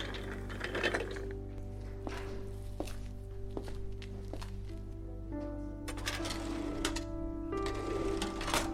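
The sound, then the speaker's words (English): A microfilm machine mechanism runs with a steady mechanical hum, and irregular clicks, ratcheting ticks and soft clunks recur throughout. “I then went to the microfilm machine.”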